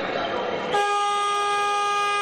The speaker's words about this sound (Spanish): Antes le decíamos, digamos, chicharra, o antes le decíamos silbato, ahora usan bocina.